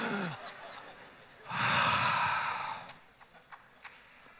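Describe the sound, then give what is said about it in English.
An audience takes a big deep breath together, one broad collective whoosh of breathing that swells for about a second and then fades, followed by a few faint clicks. “Everybody, let's take a big deep breath together because it's just wearing me out.”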